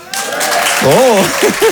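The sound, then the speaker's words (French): An audience applauds in the hall of a live comedy show in Paris, a steady wash of clapping with a voice calling out over it. “Oh, les beaux applaudissements.”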